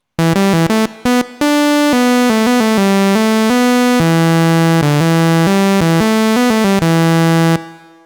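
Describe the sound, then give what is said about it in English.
Analogue synthesizer with its keyboard setting the oscillator pitch, playing a simple melody of many plain, buzzy notes, a few quick ones at first, then longer tones ending on a sustained note. “Which means that when I play the keys of the synthesizer, the keyboard, sends a voltage to the oscillator that tells the oscillator what pitch to play.”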